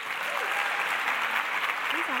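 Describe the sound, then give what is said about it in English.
An audience at a writers' festival claps to welcome a performer to the stage, a dense, steady applause with faint voices over it. “So please join me and let's get our clapping into formation to welcome to the stage Honor Easley.”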